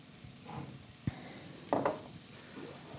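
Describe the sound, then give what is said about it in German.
Lentils tipped into a frying pan of spaghetti bolognese sizzle faintly and steadily, broken by a short thump and a brief, louder rushing burst. “Gut, dann nehmen wir schon die Linsen, schmeißen die oben drauf.”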